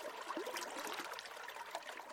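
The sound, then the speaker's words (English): Water laps gently at a bobbing dock on the Columbia River. The splashing and trickling is soft, continuous and fairly faint, with no voices. “We're on a bobbing dock on the Columbia River.”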